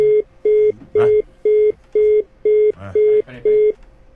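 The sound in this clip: Telephone line tone after a dropped call: eight short, evenly spaced mid-pitched beeps pulse at a steady rhythm of about two per second, with brief bursts of background noise between them.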